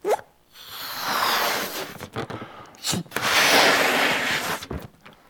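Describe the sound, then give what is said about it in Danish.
Breath blown into a balloon: a few long, airy blowing bursts separated by brief pauses, with a soft pop-like sound at the very start. “en ballon. Altså, hvis jeg nu puster luft i den,”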